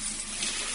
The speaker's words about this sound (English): That's the sound of money being poured down the drain.